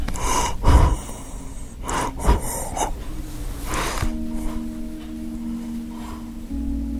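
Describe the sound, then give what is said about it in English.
Labored gasping breaths come from a dying 94-year-old man with end-stage congestive heart failure, at his bedside in a nursing home. A few heavy, irregular breaths are followed by a steady low hum. “You can probably hear him breathing here in the background.”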